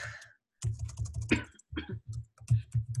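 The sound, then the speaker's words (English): Someone types a web address on a computer keyboard: quick bursts of clicking keystrokes that stop for a short pause, then resume in uneven clusters. “So Joel, let me see if I can type it in here.”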